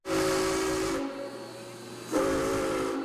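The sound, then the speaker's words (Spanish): Two loud, sustained whistle blasts from a century-old steam locomotive, separated by about a second of steady steam hiss that carries on beneath the second blast and after it. “Así ruge la Emperatriz, esta locomotora que ha conmocionado a muchos a su paso.”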